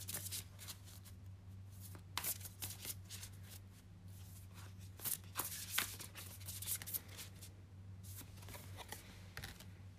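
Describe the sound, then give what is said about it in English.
Cards from a moon oracle deck are shuffled and drawn, making soft, papery swishes and flicks. Many brief rustles come in irregular bursts over a faint, steady low hum. “Let's see what you have from the moon deck. And then we'll get more into the explanation as we pull the last three cards.”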